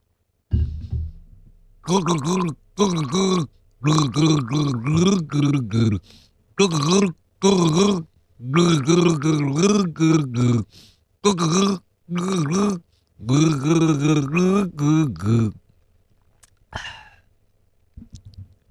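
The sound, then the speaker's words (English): A person gargles a drink from a Frank Green bottle, voicing a song's melody through the liquid. Bubbly, throaty tones rise and fall in pitch across many short phrases with brief pauses, then fade to near quiet at the end. “I'm going to take a sip of a drink of my Frank Green. I will gargle the tune of a song.”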